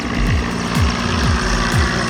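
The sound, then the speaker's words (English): A fire helicopter circles over a burning warehouse that was hit by a drone, giving a steady engine and rotor drone with a regular pulse about twice a second. “That's the sound of a fire helicopter circling a warehouse that belongs to the country's version of Amazon.”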